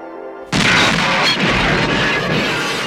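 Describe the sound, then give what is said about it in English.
A bomb goes off in a terrorist attack in the film Brazil: one sudden, very loud blast bursts out of near silence, followed by a long, dense crash and rumble of debris that slowly thins out. “a bomb goes off, and what we later learn is a terrorist attack.”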